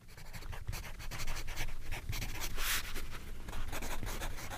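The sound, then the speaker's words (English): A pen scratches across paper as someone writes down words, making a faint run of many quick, dry, rustling strokes at an uneven pace. “So you're writing down aphasia? Okay. And you wrote down stroke.”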